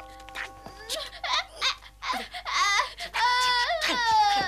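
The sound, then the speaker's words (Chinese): A child crying in a dramatized scene of Granny Liu's first visit to the Rongguo mansion: broken sobs and whimpers that build into longer, louder wailing cries toward the end. “别哭了，别哭了，住声，住声，别嚎声，住声。”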